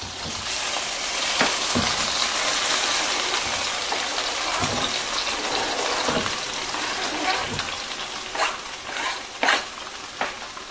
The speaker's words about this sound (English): Yes, that's the sound of a frying pan.